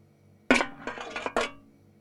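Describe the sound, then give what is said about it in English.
A big pan being handled: a few sharp metallic clanks and clinks in quick succession, each with a bright ringing tail, heard on their own. “That is a big pan, Peter says. Jane gets the big pan.”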